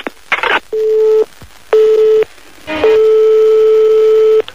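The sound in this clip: Telephone line tone during a call back: two short steady beeps and then a longer held tone, after a brief burst of noise and faint clicks.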